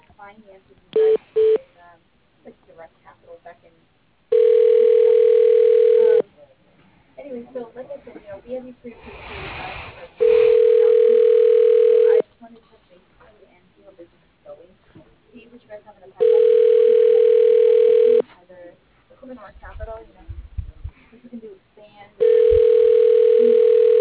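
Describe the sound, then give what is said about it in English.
Telephone tones as a call is transferred to voicemail: a couple of short beeps, then four long steady tones of about two seconds each, with a person talking in the gaps between them. “I can transfer you to his voicemail.”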